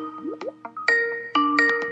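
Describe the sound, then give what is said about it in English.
A phone ringtone sounds for an incoming call: bright electronic tones, opening with two short rising chirps and then held, layered notes that repeat, fairly loud and alone. “Oh boy, I've got a call, and I'm going to pick it up.”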